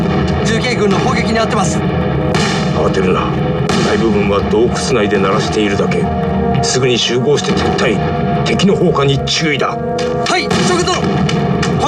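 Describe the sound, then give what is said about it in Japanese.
Mountain artillery guns bombarding enemy campfires in a battle scene: dense, continuous booming and crackling gunfire with no let-up, loud throughout, with voices shouting over the barrage. “集中我们所有的山炮，对准这些篝火堆，给我猛轰这些王八羔子！”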